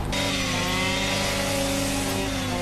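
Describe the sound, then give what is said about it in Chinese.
A tank-cutting machine's small engine runs steadily and loudly throughout, a dense buzzing drone with no clear pause or change in speed. “快速拉动启动器，3到5次即可启动，把组合门打到开的位置，加油门正常操作使用。”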